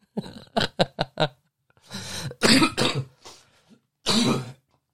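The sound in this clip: A person clearing their throat and coughing: a quick run of short, sharp coughs, then longer raspy throat-clearing rasps, and one final harsh burst.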